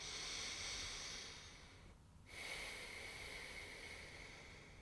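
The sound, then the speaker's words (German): Faint, airy sound of someone taking a deep breath during a guided relaxation, a soft, continuous rush of air with a brief dip and pause midway, no speech. “Nimmt einen tiefen Atemzug.”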